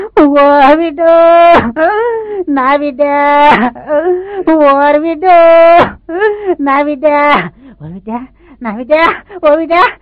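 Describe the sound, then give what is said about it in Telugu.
An old woman wails and cries in mourning, sitting at a boy's head during a grief-stricken scene. Her long, quavering sobbing cries are loud and break into halting phrases with brief gasps between them. “ఒక ముసలావిడ మరీ దారుణంగా ఏడుస్తుంది.”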